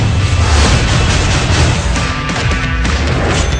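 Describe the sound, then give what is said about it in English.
A loud explosion set off after a fire-in-the-hole warning, heard as a sustained roaring blast with deep rumble that fills the whole moment without letting up. “Go! Everybody sit down on the floor. Fire in the hole!”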